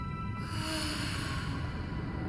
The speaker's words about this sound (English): A soft susurration, part exhaled breath, part disembodied moan, answered from somewhere in the darkness.